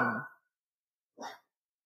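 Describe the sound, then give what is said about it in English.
A dog barks twice: two short, sharp barks separated by about a second of silence, with nothing else audible. “All right, had to do a quick pause there. Again, sorry for the barking, guys.”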